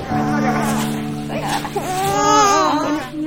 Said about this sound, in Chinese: 好了，不哭了啊，不哭了啊，走了啊。